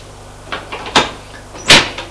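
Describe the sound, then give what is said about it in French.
Knocking on a door: a few separate, fairly loud knocks at uneven intervals, the last one the sharpest and strongest. “On frappe à la porte.”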